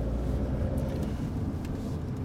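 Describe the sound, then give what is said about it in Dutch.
A car is driven toward a residence and brought to a stop to park, giving a steady, loud low rumble of road and engine noise with no talk. “Dus ik ga maar nu de auto even neerzetten op een ander plekje.”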